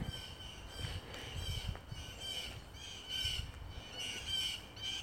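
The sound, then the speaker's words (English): Birds squawk outdoors early on a February morning in Franklin, Massachusetts. Their harsh, raspy calls repeat in several clusters over a low, steady background rumble. “As we listen to the birds in the background.”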